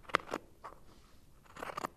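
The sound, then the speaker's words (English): Scissors cut the sleeve off an old sweater, giving a few short, crisp crunching snips, with a quiet gap in the middle before a closer cluster of cuts at the end. “Taking an old sweater that doesn't fit me anymore, and I'm going to cut it off at the sleeve.”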